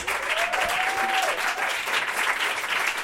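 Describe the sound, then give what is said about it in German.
An audience applauding loudly after being urged to clap louder. Dense, steady clapping runs at an even level for the whole stretch. “Okay, das war nicht laut genug, Leute. Applaus!”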